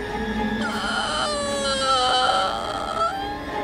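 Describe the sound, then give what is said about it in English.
A woman whines from her throat in a thin, high, wavering cry that sounds close to a whimpering sob. It holds steadily for the whole stretch while its pitch wobbles up and down. “The whining was coming from her throat.”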